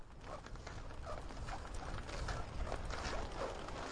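A worn-out, run-down bicycle is ridden along, giving a steady rattling clatter of loose parts with irregular knocks and creaks over continuous rolling noise.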